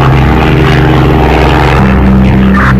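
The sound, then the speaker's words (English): An aircraft in flight under propeller-engine power gives a loud, steady drone with strong low tonal hum and layered harmonics, continuous throughout with no voices. “turn the aircraft to your left. Yes, and immediately to the right.”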